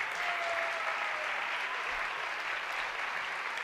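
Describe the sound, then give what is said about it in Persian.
An audience applauds a live musical performance with a dense, steady wash of clapping that holds an even, fairly quiet level from start to finish. “خواهش میکنم باز هم تشویقشون بکنیم”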